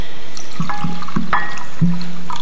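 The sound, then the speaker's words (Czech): Water is poured into a container holding a needle for a floating test, heard as a few short trickles and drips over a steady background hiss. “Nalejme tam ještě trochu vody.”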